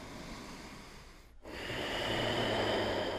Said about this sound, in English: Let's clear it out. One breath.